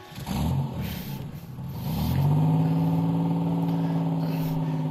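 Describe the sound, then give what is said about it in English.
A car engine revving and accelerating as it drives through Pau Grande, a loud, low growl that surges briefly, then climbs steadily and gently in pitch, with no voices. “Oh, hey, watch out! What is going on? Driving blind drunk, Garrincha hit his own father.”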